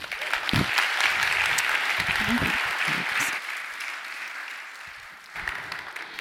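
Audience applause welcoming a guest for an interview: steady, full clapping that slowly softens and thins, then briefly swells again near the end.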